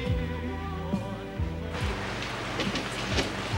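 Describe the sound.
Rain falls at night as a taxi driver loads a suitcase. A steady hiss grows denser partway through, mixed with sustained low tones and a few brief low sweeps.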